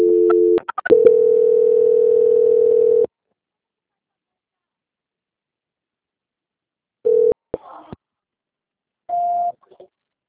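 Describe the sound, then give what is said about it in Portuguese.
Tones sound on a telephone line as a call is transferred to quality control: a few clicks, a steady tone for about three seconds, silence, then two short beeps, the last one higher in pitch. “Eu vou transferir o contato para o controle de qualidade que vai dar andamento à sua contratação, ok? Tudo bem. Só um minuto. Transferência.”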